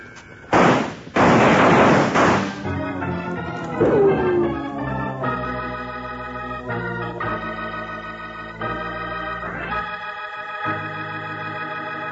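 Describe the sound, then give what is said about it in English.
Gunshots in a western shootout from an old-time radio drama: a couple of loud, sharp bursts of gunfire in the opening seconds, after which orchestral music takes over and plays steadily to the end. “Yeah, they're shooting it up.”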